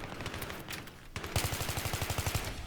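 Rapid automatic gunfire in a video game shooter, a quieter stretch giving way to a loud, steady stream of many evenly spaced shots that runs to the end.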